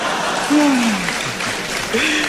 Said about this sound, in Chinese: 还有这么多的观众给咱们鼓掌